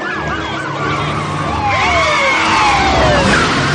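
Several wailing sirens of police patrol cars arriving at the entrance of a train station overlap, their tones sweeping up and down continuously and loudly over a low road rumble.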